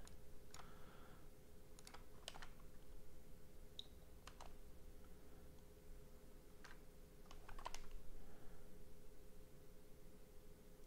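Sparse, irregular keystrokes of a message being typed on a computer keyboard, faint quick clicks that come alone or in short clusters over a low steady hum.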